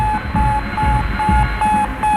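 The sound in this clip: Radio beeps from the Sputnik satellite: a steady run of short, evenly spaced electronic tones, pulsing on and off over a constant hiss of noise.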